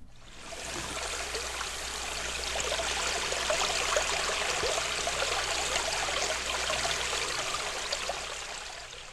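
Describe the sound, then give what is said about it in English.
A brook flowing: a steady, unbroken babble and rush of water that holds an even loudness throughout, with no voices. “For example, here is the sound of a brook.”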